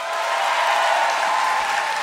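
Loud, continuous applause with crowd noise as an audience votes by clapping, a thick even roar of many hands that holds steady for about two seconds.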